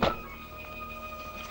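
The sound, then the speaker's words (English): A bundle of guns dropped onto the ground in a clearing lands with a single dull thud at the very start, followed by a steady, even background tone. “One of them drops a bundle of guns onto the ground.”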